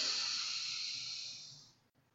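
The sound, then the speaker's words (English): One long, deep breath drawn in through the nose, a breathy hiss that holds steady and then fades out toward the end. “let's just take in everything that has happened before this moment in through your nose”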